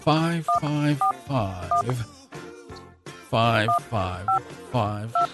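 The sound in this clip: Mobile phone keypad dialing tones: several short, steady two-note beeps tapped out in an uneven rhythm, with a voice heard alongside and between them.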